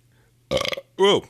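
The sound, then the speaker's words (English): A loud, throaty belch from a person, deep and rasping, coming after a brief choppy burst of voiced sound. The whole thing is short and stands alone without background noise. “I usually walk up to someone, I just belch right in their ear from behind.”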